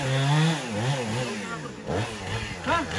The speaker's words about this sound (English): Now these guys have walked here with the chainsaw.